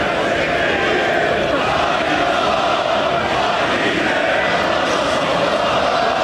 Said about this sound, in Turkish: Sarı kırmızılılar üst üste 4. toplamda ise 26. şampiyonluğunu ilan edince tüm yurtta olduğu gibi Dadaşlar Diyarı Erzurum'da da taraftarlar şampiyonluğu coşkuyla kutladı.